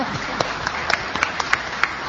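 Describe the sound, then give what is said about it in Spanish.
A small group of guests gives brief, light applause during morning greetings. The clapping is thin and uneven, with several crisp individual claps popping out over the softer patter. “¿Podría ir un aplauso ya que estamos tan bien rodeados?”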